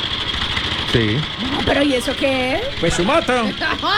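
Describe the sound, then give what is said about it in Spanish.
Motorcycle engine with a faulty carburetor, running with a rapid, steady buzz under people talking. “Pues su moto.”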